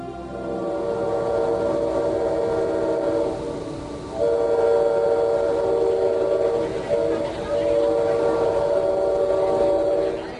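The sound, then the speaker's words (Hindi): A train bound for Pretoria in South Africa sounds a sustained horn or whistle over a continuous rolling rumble, with the tones pausing and returning partway through. “ये train आपको सीधे Pretoria पहुंचा देगी।”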